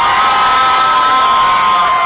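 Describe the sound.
A crowd cheers and whoops loudly and steadily after a mayor concedes an election, the reaction coming from opponents of a stadium sales tax. The cheering is a dense, unbroken wash of voices throughout.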